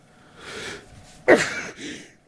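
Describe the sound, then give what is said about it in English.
A man sneezes: a breathy inhale, then a sharp explosive burst trailing into a rough exhale, followed by a second short forceful burst at the end. “how's that for a live sneeze, huh, folks?”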